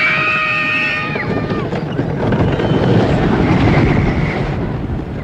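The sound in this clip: Roller coaster cars plunging down a steep, straight-down drop after climbing an enormous hill: a loud, steady rushing roar, with high screeching tones that bend downward early on.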